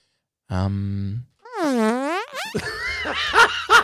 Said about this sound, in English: open with the fart. That's such a great fart sound effect.